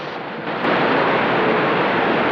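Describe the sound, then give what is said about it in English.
A small river boat buffeted by waves in rapids: a rushing, churning roar of water that jumps louder after a sharp crack about half a second in, then stays dense and steady. “Rose grasps the tiller, grimacing with exertion as the boat is buffeted by the waves.”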